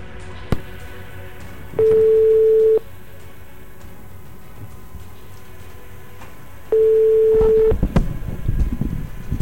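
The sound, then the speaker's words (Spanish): Two long, even telephone ringing tones of an outgoing call on a Sunday, separated by a lengthy gap over a steady low hiss, with rougher noise swelling near the end. “Vamos a intentar la llamada de nuevo.”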